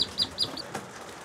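Newly hatched ducklings chirping: three quick, high, soft peeps in fast succession over a faint, low background rustle.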